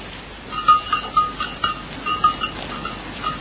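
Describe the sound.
Sheep bleating from livestock kept for lambs, with many short, repeated calls rising and falling in a steady sequence over a constant background hum.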